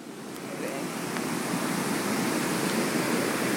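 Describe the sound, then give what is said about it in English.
The South St. Vrain River in flood, risen high and fast-flowing, gives a loud, continuous roar of rushing water. The broad, hissing wash holds steady throughout with no pauses. “this is the sound of the South St. Vrain River, it looks like the Congo at this moment.”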